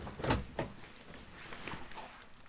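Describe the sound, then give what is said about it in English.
A door being shut securely: a quiet, sharp knock, then a second softer click, followed by faint rustling. “got up and shut the door quite securely”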